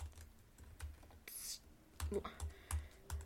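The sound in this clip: Typing on a computer keyboard: quiet, irregular clicks and taps of keys in uneven bursts, with a few firmer strokes standing out against a low background.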